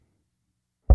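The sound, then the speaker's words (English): One dull knock at a door, a low, heavy thud that comes suddenly at the very end after nearly a second of silence. “there does always seem to be someone knocking at my door.”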